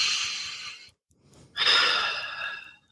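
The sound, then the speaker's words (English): A deep breath is drawn in and then let out: two soft, airy rushes separated by a brief silent pause, heard alone without voices. “So take a deep breath in and out.”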